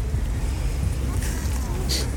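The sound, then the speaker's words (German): Wind picking up outdoors, heard as a steady, low, buffeting rumble that holds an even loudness throughout. “Ja, vor allem kommt jetzt der Wind auf.”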